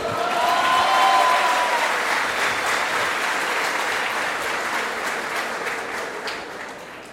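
Audience applause at a live comedy show, dense and steady clapping throughout that tapers off gradually toward the end.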